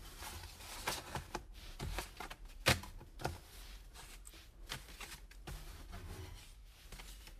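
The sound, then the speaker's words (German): Playing cards laid out for fortune telling make soft, papery slaps and rustles, faint and irregular, with one sharper snap near the middle. “Willst du mir einmal die Karten schlagen? Gern.”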